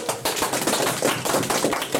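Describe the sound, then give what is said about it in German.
A small group applauds in a studio, with dense, continuous clapping holding at an even level for the full two seconds. “Dann gibt es einmal einen Applaus.”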